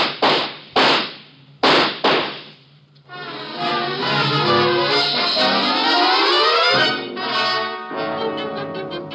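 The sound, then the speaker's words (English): Gunshots are fired, giving four sharp, loud cracks in quick succession at the start before a long, sustained tonal sound takes over. “Watch out, he has a gun. Get down. Shoot him, Rovar.”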